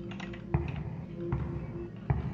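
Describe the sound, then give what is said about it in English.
Three sharp taps, like button presses on a code lock in a video game, fall at an even interval over a faint steady hum, with no talk. “So you used your code lock.”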